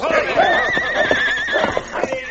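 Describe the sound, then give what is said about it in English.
Horses neighing and whinnying in panic as a dog nips at their legs, making them rear and plunge; several loud, shrill, wavering whinnies overlap one another throughout. “His attack threw the horses into a panic. They reared and plunged wildly.”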